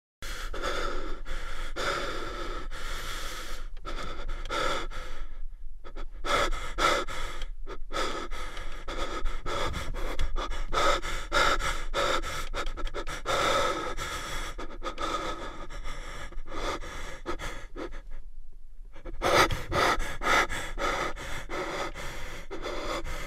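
Heavy, gasping breathing and panting from a bathroom, continuous and fairly loud throughout, with a few brief pauses and no speech.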